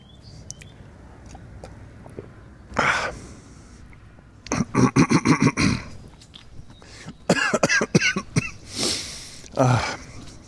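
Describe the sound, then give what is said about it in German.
Coughing and throat clearing after choking on something swallowed: several rough, harsh coughs come in short clusters with sniffs and breaths between them, separated by brief quiet gaps. “Entschuldigung, jetzt habe ich mich verschluckt.”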